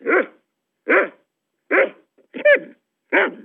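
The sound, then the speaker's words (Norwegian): A small, yappy dog barking: five short, sharp barks at a steady, evenly spaced rhythm, clear and alone with silence between them. “Det var Gneldrebikkja si det som bjeffet.”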